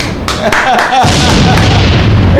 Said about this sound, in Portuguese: Ele acende logo uma bombinha. Ele acende logo uma bombinha, não?